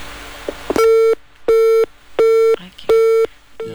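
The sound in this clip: A telephone busy tone after a caller's line drops: four loud, steady beeps at one pitch, evenly spaced with short silent gaps. A fifth beep begins at the end, and a couple of faint clicks come before the first.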